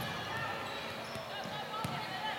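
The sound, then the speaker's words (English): A basketball is dribbled on the court during a women's game, sharp repeated bounces over a constant low background murmur. “Now dribble into the corner.”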